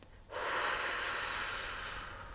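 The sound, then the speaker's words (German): A slow, full exhale during a guided relaxation breathing exercise. After a brief quiet moment, a soft, airy rush of breath starts and holds steadily to the end, easing off only slightly. “Also wir machen das mal einmal ganz ausatmen.”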